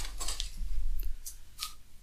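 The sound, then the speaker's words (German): A sheet of paper is rustled, crisp crackling crinkles in a few sharp bursts over a soft low rumble, with no talk. “Ja, und ich raschel jetzt ganz doll. Ich hoffe nicht zu doll und gebe dir ein Blatt.”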